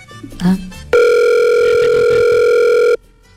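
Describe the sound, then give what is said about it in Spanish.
A telephone call reaching voicemail gives one loud, steady electronic tone lasting about two seconds, after a brief moment of voices. “Este es el servicio de contestador. No, no nos quiere contestar ya.”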